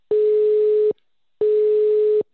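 A telephone ringback tone while waiting for an answer: two steady, mid-pitched tones, each just under a second long, separated by a short silence.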